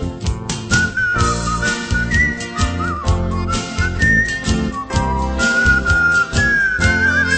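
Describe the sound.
A bright, clear whistled melody rides over an upbeat instrumental backing with a steady beat. The tune's notes move up and down, with sustained pitches held between short phrases.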